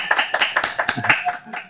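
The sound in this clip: A small audience applauds in a short burst of brisk, scattered hand claps, with a brief voice overlapping the clapping.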